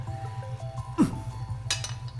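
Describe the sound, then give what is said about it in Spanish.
A stone thrown at a frying pan lands with a sharp metallic clink, a brief bright ring over a low steady hum, followed by a second, fainter rattle. “¿Qué me das si acierto esa sartén con esta piedra?”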